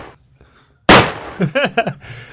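A gun fires a single loud, sharp bang that breaks a near-silent start, followed by a few short vocal whoops.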